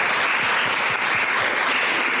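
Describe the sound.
Audience applause after the first session of a science talk event: many hands clapping in a dense, steady patter that stays fairly loud and even throughout, with no voices.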